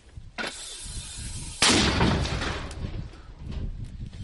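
A mortar battery firing: two heavy blasts, a smaller thud followed about a second later by a much louder boom whose deep rumble lingers and slowly fades, with a further swell of rumble near the end.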